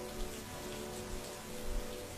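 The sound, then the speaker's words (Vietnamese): Heavy rain pours down at night during a flood season in a northern village. It comes through as a steady, even hiss of falling water, fairly soft and unbroken, with no voices. “Ban đêm tôi nằm giữa hai anh, lắng tai nghe tiếng mưa rơi ầm ầm.”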